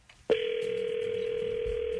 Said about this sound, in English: So we're going to try to get him on the phone right now.